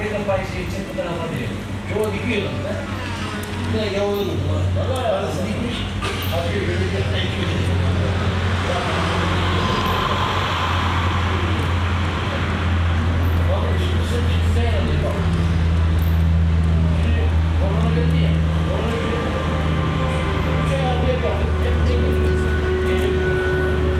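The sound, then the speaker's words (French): Roaring engines of a few Formula 1 racing cars passing on the Montlhéry circuit, a loud, dense, continuous mechanical roar with a steady low drone that never drops away across the whole stretch. “Refaisons l'expérience avec le passage sur le circuit de Montlhéry de quelques voitures de Formule 1.”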